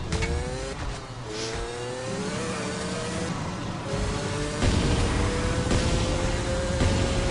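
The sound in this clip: A car engine revs in a driving video game, a continuous loud drone whose pitch climbs and then drops back a few times as if shifting gears, over steady road and tire noise.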